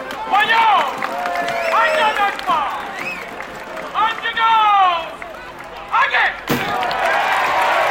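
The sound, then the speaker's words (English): Crowd voices shout and call out at a Giglio street festival celebration in Williamsburg, Brooklyn, in loud overlapping bursts, with a single sharp thud or slam near the end. “The sounds of the Giglio celebration in Williamsburg, Brooklyn.”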